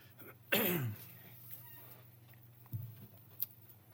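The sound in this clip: A single rough throat clearing bursts out early and loud, then fades into quiet with a couple of faint, brief noises after it.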